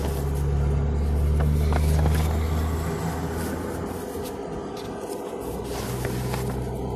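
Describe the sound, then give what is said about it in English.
Traffic rumbles at a truck stop: a continuous low engine drone of passing and idling vehicles that stays steady and fairly loud throughout. “Pardon the noise, we're at a truck stop.”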